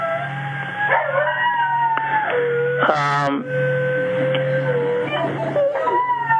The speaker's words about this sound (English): there are like dogs in the other room I'm sitting, so you might be hearing dogs crying or something.